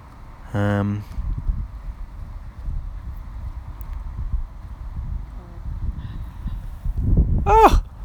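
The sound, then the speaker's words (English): A distant hen gives one brief, high, wavering chirp near the end, rising out of a steady low rumble of wind noise. “Just heard Craig in the distance chirping in on this final hencast.”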